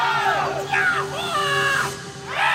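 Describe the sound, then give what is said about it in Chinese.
Roaring, shouted singing of Huayin Laoqiang folk opera: several strained voices swoop and bend in pitch at full force over a crowd-like wash of sound. It stays loud throughout, dips briefly, then surges again. “一声嘶吼从千年的黄土裂缝中炸裂而出，这是华阴老腔，是秦人刻在骨子里的慷慨。”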